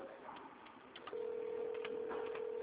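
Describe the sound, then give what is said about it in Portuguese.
An incoming-call tone sounds during a phone call, a steady single-pitched beep that starts partway through and holds to the end over faint background voices. “Ah, eu tô na ligação e tá tendo um barulho de chamada aqui.”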